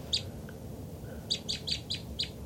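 Two birds call while flying: high, short, sharp chirps, one alone and then a quick run of five, over a steady low background rumble.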